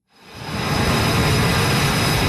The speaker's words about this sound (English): A fighter jet races down the deck of an aircraft carrier in the Strait of Hormuz. It lifts off, disappearing into the sky.